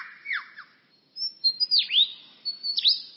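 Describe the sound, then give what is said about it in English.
A forest songbird mimics a camera shutter with a quick run of sharp, high, downward-swept chirps. About ten brisk calls arrive in short clusters separated by brief pauses, clear against a quiet background. “He also, in his attempt to outsing his rivals, incorporates other sounds that he hears in the forest. That was a camera shutter.”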